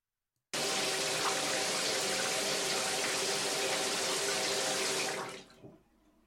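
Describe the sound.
Water pours steadily while shower gel is rinsed off, a loud, even hiss that starts abruptly, holds for about five seconds, then fades away.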